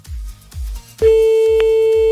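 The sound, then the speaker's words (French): Telephone line tones while a call is being placed: low pulsing tones give way to a loud, steady, unwavering tone with one brief blip, and no voices. “On appelle directement un autre, là.”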